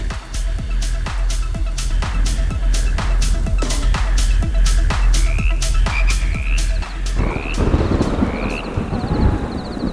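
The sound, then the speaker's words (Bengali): Frogs croak outside in a loud, steady chorus, with many sharp rhythmic croaks repeating over a continuous low background. “বাইরে ব্যাংগুলো মহানন্দে গ্যাংর gang করেই চলেছে”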